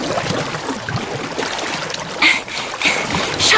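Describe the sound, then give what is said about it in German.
A paddle strokes through the water beside a board, and the rippling, splashy water flows steadily. A few louder splashing strokes come toward the end. “Ich paddel jetzt schon richtig schnell.”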